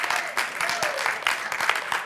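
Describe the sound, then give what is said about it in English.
Congregation clapping hands in praise during a church sermon, a sustained, lively burst of many overlapping claps at moderate loudness. “Yeah, give God a hand clap or praise.”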